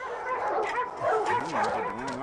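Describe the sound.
Dogs in a household of five yip and whimper in rising and falling high-pitched cries that carry on almost continuously at moderate loudness, with no clear deep barks.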